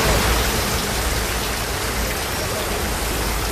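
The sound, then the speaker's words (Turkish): Heavy rain in the Palu district of Elazığ during flooding, heard as a loud, steady, dense hiss with no distinct drops or pauses. “Elazığ'da şiddetli yağmur Palu ilçesinde sele neden oldu.”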